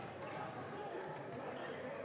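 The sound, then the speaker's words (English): A basketball is dribbled on the court during a high school boys' game, with repeated bounces set against a steady wash of crowd noise. “Still has the dribble 10 feet beyond three on the left. Dribbling left to right, not going anywhere, and it's an Exeter timeout”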